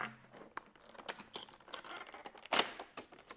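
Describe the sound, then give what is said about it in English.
Cardboard from a kids' model-kit box being handled and opened, with a series of sharp scrapes, taps and crinkles and one louder tearing burst near the end; no talking. “This is a strange box. We may not even get through opening the box.”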